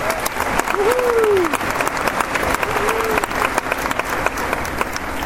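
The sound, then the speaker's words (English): An audience at a grade-school graduation applauds its teachers in a dense, steady wash of clapping, with a couple of whistles rising above the crowd. “Let's give it up for your teachers.”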